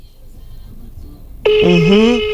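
A steady electronic telephone tone, from a call to someone who has not yet picked up, starts abruptly partway through after a quiet stretch and holds at a constant pitch to the end.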